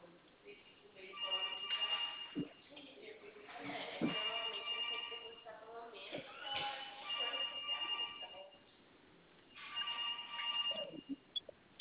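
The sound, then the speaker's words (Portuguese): A phone rings with an incoming call, a tinny electronic ringtone repeating in several melodic bursts separated by short gaps, thin and narrow-band in tone. “Mano, como é que eu vejo a ligação aqui? Tu me ligou agora? Não, tá ligando, tá ligando.”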